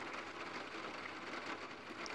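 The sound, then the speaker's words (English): Rain hitting a skylight on a rainy day: a soft, steady patter and hiss of drops running without a break, faint and even from start to finish. “You can hear the rain hitting the skylight.”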